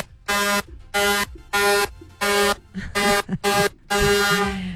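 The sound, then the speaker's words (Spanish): Horn honking rings out in seven loud, brassy, buzzing blasts. The first six are short toots in an uneven rhythm and the last is a longer, held honk. “Uy, suena largo. Los pitos que yo tengo aquí. Suena largo y tendido.”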